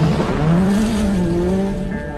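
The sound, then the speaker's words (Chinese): Race-car engine and squealing tires as a car drifts through turns on a gravel surface, making a short, loud burst of steady engine drone mixed with tire squeal. “车子一个漂移转弯，地上的石子儿被溅了起来，他又一个漂移，然后向右急转弯，溅起了飞扬的尘土。”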